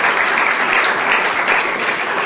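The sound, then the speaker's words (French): Audience applause after a spoken testimony: loud, dense clapping of many hands, steady and even throughout with no talk over it. “On l'applaudit, d'accord? C'est super.”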